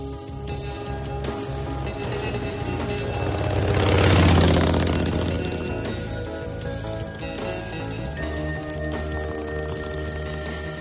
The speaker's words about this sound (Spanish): Tim y Kit van en la moto por una carretera